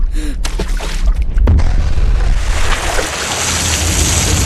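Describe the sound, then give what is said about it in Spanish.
A grenade dropped into a swimming pool explodes with a deep, muffled thump about midway, set within a continuous loud roar of churning, rushing water. “¡Sargento! ¡Suelta una granada en la piscina!”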